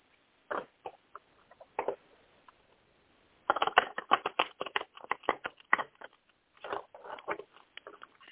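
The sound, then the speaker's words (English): A deck of cards being shuffled, quiet crackly riffles in short bursts: a few brief flurries early on, then a longer, denser run of rapid clicking after a pause, heard alone. “Just going to shuffle real quick.”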